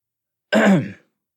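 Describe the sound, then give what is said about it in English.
One short throat clearing, performed by a player for a character in a tabletop role-play, a brief rough burst of about half a second, alone against silence. “And then he's just going to clear his throat because Two has their eyes closed.”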